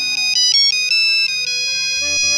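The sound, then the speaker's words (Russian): A satellite phone rings with a rapid series of high, bright electronic beeps in quick pulses, followed by a brief low rumble near the end. “И тут звонит спутниковый телефон.”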